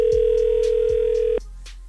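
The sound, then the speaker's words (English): Telephone dial tone as a call is placed: a steady, loud electronic tone holds for over a second, then cuts off abruptly, leaving a low hum. “And now it's time to make a phone call and give these tickets away.”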